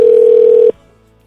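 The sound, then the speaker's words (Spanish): Dial tone as a telephone call is placed from Mexico City to the United States: a loud, steady, single-pitched tone that cuts off abruptly partway through, leaving near silence. “A ver si nos contesta. Ya estamos comunicándonos con Rodrigo desde la Ciudad de México hasta alguna parte de los Estados Unidos”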